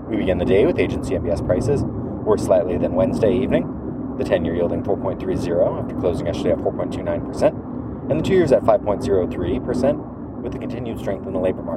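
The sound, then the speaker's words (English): Road noise from the back seat of a taxi cab driving in Boston: a low, steady rumble runs under a man's continuous talk throughout. “I'm riding around in the back of a taxi cab in Boston, so apologize for the noise.”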